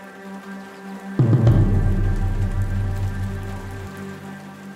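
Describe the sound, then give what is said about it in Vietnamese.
Rain begins to fall, pattering on a surface: the hiss starts abruptly after about a second and continues as a steady wash over a faint, sustained low tone. “Trời bắt đầu đổ mưa tí tách.”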